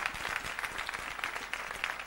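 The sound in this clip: A church audience claps its hands in praise during a worship service. The applause is brisk and continuous, a thick texture of many overlapping claps held at a steady level from start to finish.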